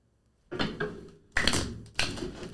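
Oracle cards are shuffled and spread out during a card reading, making a few short, papery rustling and slapping bursts with quiet gaps between them, no voices over them.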